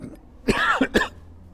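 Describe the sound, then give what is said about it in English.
A person clears their throat and then coughs in a choking fit. A few short, harsh bursts come in quick succession over a quiet background. “I'm actually not choked up, I'm just choking.”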